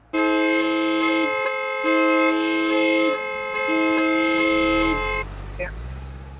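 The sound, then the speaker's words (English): Car horn honking in repeated long blasts, three sustained steady tones with short gaps between them, loud and harmonic-rich, over street traffic rumble that continues after the honking stops. “Keep honking”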